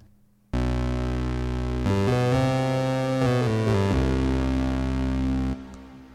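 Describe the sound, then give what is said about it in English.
Sustained synth chords played through a large hall reverb preset in a DAW, with the harmony shifting through several changes before the notes stop and a soft reverb tail fades out. “if you go to large reverb, these are just a few of them. You know, Arcadia Dream Hall, let's try that.”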